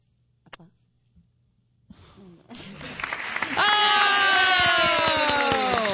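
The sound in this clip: Applause sound effect set off by a button, starting faint and swelling after a couple of seconds into loud, sustained clapping and cheering, with a few small sounds before it.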